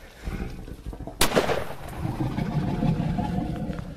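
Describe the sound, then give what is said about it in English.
A single sharp gunshot cracks out from a kneeling shooter about a third of the way in, a sudden loud burst that decays quickly into steady low background noise. “You got to sit down. Kneel down. Shoot just an inch low.”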